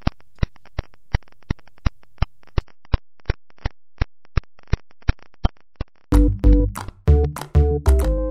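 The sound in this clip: Pulses of radiation from a pulsar rendered as sound form a steady train of sharp, evenly spaced clicks over quiet hiss. A much louder, dense tonal passage abruptly takes over near the end.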